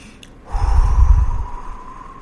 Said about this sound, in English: And then we're going to do something called download calm. We're going to take a breath